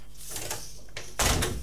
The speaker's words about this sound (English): Now, if you wouldn't mind just shutting the door.